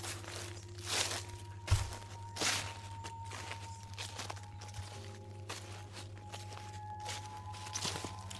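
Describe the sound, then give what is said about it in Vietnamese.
Shuffling footsteps cross a yard outside: a slow, even run of many soft scraping steps over a low, steady hum. “Ở ngoài sân hình như có tiếng chân người đang đi lẹt xẹt lẹt xẹt.”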